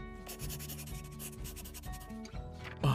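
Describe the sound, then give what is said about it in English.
A pen writes a phone number on paper: quick, scratchy strokes in a brisk run, fairly faint, over a soft steady background hum. “Here, I'll write it down for you.”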